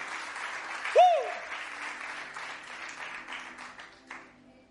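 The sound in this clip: Audience applause fills a church service, a steady wash of clapping that holds for several seconds and slowly thins toward the end, with a brief sliding tone near the start.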